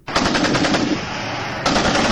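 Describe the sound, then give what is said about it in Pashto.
Heavy weapons fire in a rapid, continuous machine-gun burst of tightly spaced loud cracks at Kurram on the Pakistan-Afghanistan border. It lasts about two seconds with a brief dip in intensity before the burst resumes. “د غټ وسلو دا ډزې په کورما کې پر پاک افغان پوله یو ځل بیا د شروع شوې جګړې دي”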